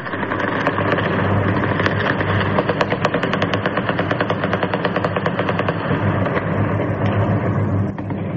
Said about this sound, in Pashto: مجاهد په خپل ټوټرو لیکل په کابل ښار کې د ډزو غږونه د خوشحالۍ دي